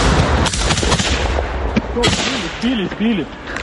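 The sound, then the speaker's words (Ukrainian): Soldiers fire guns at an FPV drone, sending sharp, loud bursts of shots over constant background noise. Voices can be heard near the end. “Неподалік FPV-дрон. Хлопці відкривають вогонь.”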